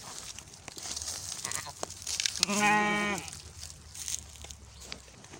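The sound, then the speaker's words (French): Sheep bleat from a flock of ewes grazing the riverbanks in northern Ardèche, where they clear brush. One loud, drawn-out bleat stands out midway, with fainter bleats and low background noise around it. “C'est le bruit des 36 nouvelles débroussailleuses de la commune de Saint-Péret, dans le nord de l'Ardèche. Ici, depuis 3 semaines, un troupeau de brebis a investi les berges de la rivière du Mialan.”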